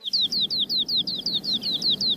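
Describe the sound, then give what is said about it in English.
A skylark sings in a rapid, even run of many high, thin, down-slurred chirps, repeated at a quick steady rhythm over a faint low background rumble. “Listen to the birds sing. The skylark sings on the wing, rising higher as the song goes on.”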